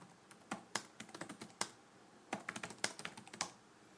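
Someone types on a computer keyboard: quiet, quick keystrokes come in two runs of many clicks, separated by a short pause.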